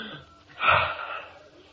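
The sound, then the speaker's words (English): One deep breath taken on instruction during a comedy exercise routine, an airy, slightly wheezy inhale that swells to its loudest partway through and then tapers off gradually, heard alone without talk. “Take a deep breath. Now, take another deep breath.”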